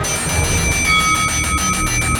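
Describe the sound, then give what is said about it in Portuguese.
A hand bell rung during a card-reading ritual gives sustained, high metallic ringing tones that pulse in quick repeats over a steady, dense background. “Bato meu sino.”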